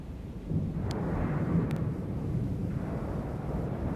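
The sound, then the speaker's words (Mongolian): Heavy rolling thunder over distant mountains, a deep, continuous low rumble that swells early and stays steady and loud throughout, with no talk. “алс сэртэгийн хар ууланд нүсэр хүнд аянган нүржигнэн дугуурна.”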